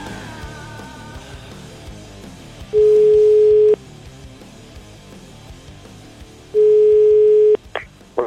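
Ringing tone on a telephone line during an outgoing call: two long, steady low beeps of about a second each, separated by a pause of several seconds, loud against a quieter background.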